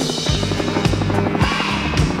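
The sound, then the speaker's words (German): A helicopter sound effect is layered over rock music. It forms a continuous churning noise beneath a steady, loud beat with regular low thumps. “jetzt machen wir ein bisschen Remix, Mix-Time, jetzt machen wir einen Hubschrauber dazu.”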